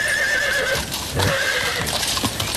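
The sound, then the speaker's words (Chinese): A horse pulling a carriage lets out a loud, high whinny, and hoof clip-clops sound beneath it. “后面一辆马车嘚嘚地赶上来，陈独秀回过头，正是高君曼的那辆。”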